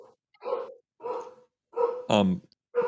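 A dog barking aboard a plane, a loud series of short barks and yelps separated by brief silences.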